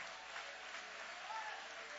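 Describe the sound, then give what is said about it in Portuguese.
An audience applauds in church, producing a steady, dense wash of clapping that holds at an even, fairly soft level throughout without pause. “podem aplaudir, podem louvar, podem exaltar.”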